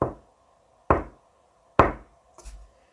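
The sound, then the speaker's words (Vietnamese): High heels click on the ground in a large, misty factory: four sharp taps at an even, unhurried pace, the last one softer and slightly doubled, with quiet between steps. “nơi sương dày nhất lại vang lên tiếng giày cao gót gõ trên mặt đất.”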